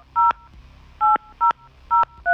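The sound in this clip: Telephone keypad tones as a number is dialed on a phone: five short, loud, evenly pitched beeps with brief gaps between them, the last one cut off at the end, and no talking.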